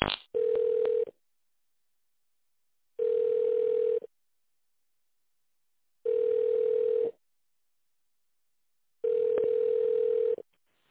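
A telephone ringing tone sounds while a call is being transferred: four steady mid-pitched tones, each about a second long and separated by roughly two seconds of silence, with a brief click at the very start.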